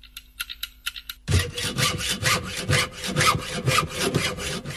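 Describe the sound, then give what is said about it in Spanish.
A handsaw cutting wood with a fast, regular series of loud rasping back-and-forth strokes that carries on steadily to the end. “Solamente el serrucho me pone de fondo, no entiendo nada.”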